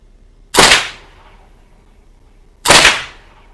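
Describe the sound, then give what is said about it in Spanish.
Two sharp gunshots about two seconds apart, each a loud crack followed by a short decaying echo, over an otherwise quiet background with no voices. “Los disparos retumban en su cabeza.”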